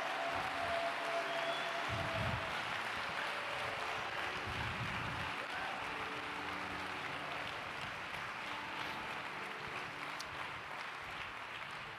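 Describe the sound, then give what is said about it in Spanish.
A church audience applauds after a prayer of thanks. The clapping is faint and steady, a continuous wash of hand claps that lasts the whole stretch without a clear peak. “dele un aplauso a Él.”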